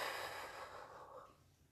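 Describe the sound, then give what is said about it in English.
Soft breathing, one airy breath heard alone that starts fairly strong and fades away within about a second and a half. “Now open your eyes slowly and inhale with me and exhale.”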